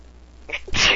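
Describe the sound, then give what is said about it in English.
A single sneeze: a couple of faint intake sounds lead into a sharp, loud hissing burst that fills the last moments, with no talk. “Achoo.”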